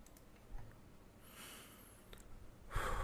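Two faint breaths with no talking: a drawn-out, airy one, then a shorter, louder puff of air at the end.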